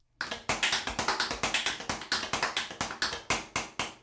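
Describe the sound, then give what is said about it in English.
A tap dance solo in tap shoes inside a hotel bathtub: many sharp, crisp taps in a quick, steady rhythm, each striking hard and ringing briefly, with no voices. “decided to throw on some tap dance shoes, and I think he was in a hotel at the time of recording this, and decided to record a little tap dance solo in the bathtub of the hotel.”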